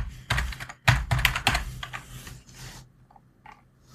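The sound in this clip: Rapid typing on a computer keyboard: dense bursts of crisp key clicks for nearly three seconds, then a few sparse, fainter taps trailing off. No voices.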